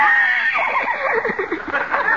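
A horse whinny performed as a sound effect: a loud, shrill, wavering neigh that holds steady for about two seconds with a trembling, fluttering quality.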